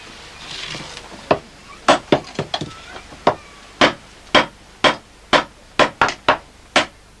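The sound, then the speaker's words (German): A village blacksmith hammers iron in a long run of sharp, dry blows over faint hiss. The strikes come bunched and uneven at first, then settle into a steadier beat. “Seit die Menschen die Eisenverarbeitung beherrschen, gibt es den Hammer.”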